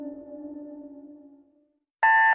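An alarm clock goes off: a single loud, harsh electronic beep burst comes after a low, steady hum that fades into silence.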